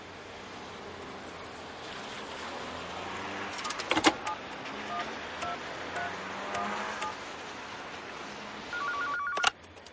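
A telephone receiver is picked up again with a click, and a number is dialled in a crime thriller scene. A short run of touch-tone beeps follows near the end, all faint over a low, steady background hum.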